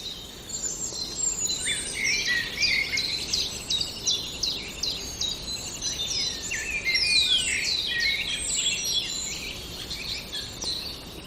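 A songbird mimics the song of a common linnet in a fast, unbroken stream of high twittering notes and trills. It carries on for about eleven seconds over a faint, steady background hiss.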